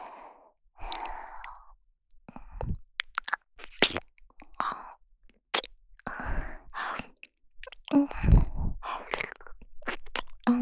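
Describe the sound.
One person chewing and biting into food, with many irregular crisp crunches spread across about ten seconds and breathy sighs between the bites.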